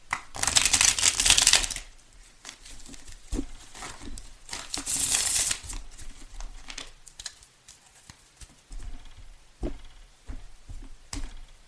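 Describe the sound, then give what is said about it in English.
A Tarot de la Nuit card deck being shuffled, with two loud, rapid riffling bursts followed by quieter taps and soft handling noises as the cards settle. “May I have three cards, please? And if anybody wants to know, the deck I'm using is the Tarot de la Nuit, which is a beautiful deck.”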